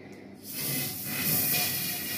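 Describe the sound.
Aerosol spray hisses in one steady, loud burst lasting about two seconds after a brief quiet start, with no voices over it.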